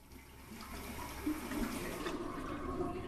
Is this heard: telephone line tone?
no